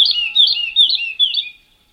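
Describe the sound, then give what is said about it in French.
A lark sings four bright, high warbling phrases in quick succession, each a rapid chirping trill, before the song breaks off into silence. “Alors là, il n'y a que l'oiseau, l'alouette de Messier”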